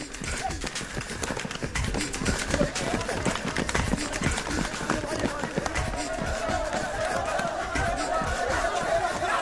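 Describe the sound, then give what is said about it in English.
Rapid, steady footfalls of a man running as a furious mob chases him, a dense rhythmic patter under a constant murmur of crowd chatter and shouting voices. “A man is running, chased by a furious mob. His fast breath mirrors panic.”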